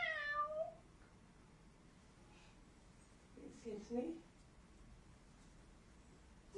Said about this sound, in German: Katzen. Du hältst die Katze nochmal. Miau!